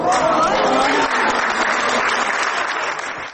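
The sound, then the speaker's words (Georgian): An audience in an opera theatre hall breaks into an ovation, a dense, loud wash of clapping that holds steady for most of its length before easing off at the end. “ამგვარის და სახელის ხსენებამ დიდი ოვაციები გამოიწვია დარბაზში.”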